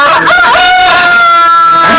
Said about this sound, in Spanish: Oye, ¿y por qué los gallos ya están cantando si todavía no es hora? Ah, siempre cantan en el rancho. ¿A esta hora, a la noche? Sí.